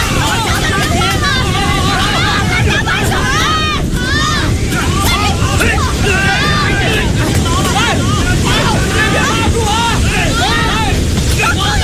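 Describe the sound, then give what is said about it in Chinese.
Wind from a landfalling typhoon with a storm surge on the coast makes a loud, unbroken roaring rush throughout, with voices calling out over it. “起风了，起风了，快 快拉住， 把防护都盖上，鸟巢都加固。”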